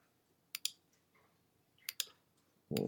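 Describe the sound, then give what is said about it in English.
Quiet typing on a computer keyboard: two pairs of sharp key clicks separated by a pause, followed by a louder burst of noise at the very end. “I'm just going to type one real quick.”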